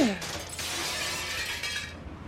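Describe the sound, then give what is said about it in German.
Window glass being smashed: a loud, dense crash of shattering glass that holds steady for about two seconds before tailing off. “Ich schmeiße euch die Fenster ein! Hört ihr das?”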